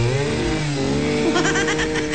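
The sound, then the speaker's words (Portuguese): A chainsaw engine being started and running, giving a buzzing harmonic drone whose pitch wavers and rises slightly toward the end, steady and fairly loud throughout. “Liga o motosserra aí”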